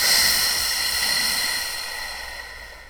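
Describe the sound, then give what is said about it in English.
A long breath is pushed out through pursed lips, making a soft, airy hiss that is strongest at the start and slowly fades over about three seconds, with no voices. “Purse your lips and exhale. Inhale. Exhale.”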